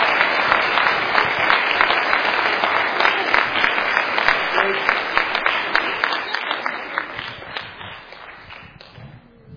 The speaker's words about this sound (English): ladies and gentlemen, a round of applause, please